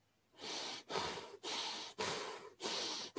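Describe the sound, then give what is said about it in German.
Rapid breaths drawn in and out through the nose during a guided breathing exercise. Each one is a broad, airy rush, and they follow one another in a quick, even rhythm with almost no gap between them. “Und jetzt lass deinen Atem schneller werden. Atme schnell und durch die Nase.”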